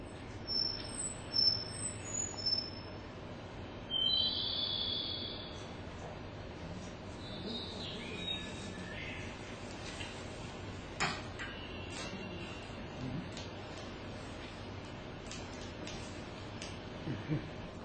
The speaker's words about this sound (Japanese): 私の録音の中にはよくホトトミスの声と一緒にウグイスの谷渡りの声が、入っています。